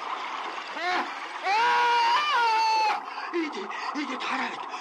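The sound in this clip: Water poured into an open hand splashes and spatters in short bursts, with voices talking over it throughout.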